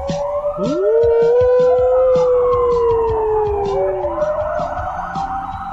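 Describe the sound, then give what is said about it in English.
A dog howls with pursed lips, imitating a siren: a loud, long, sustained wailing tone that holds steady and slowly drifts lower, with a wavering higher tone continuing near the end. “when a dog hears a siren and then purses his dog lips and tries to replicate the siren.”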